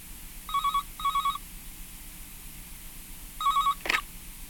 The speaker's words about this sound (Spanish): Suena el teléfono y...